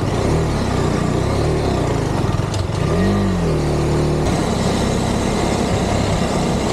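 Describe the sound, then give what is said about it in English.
A KTM 250 Adventure motorcycle engine drones loudly and steadily while riding along a narrow, muddy dirt road, with a brief rev in pitch partway through. “The little KTM 250 Adventure was ripping along these little dirt road.”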